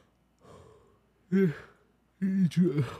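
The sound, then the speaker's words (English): A yawn, starting with a soft, breathy intake and breaking into a few short, voiced, groaning bursts that grow louder toward the end. “God damn it, the yawn.”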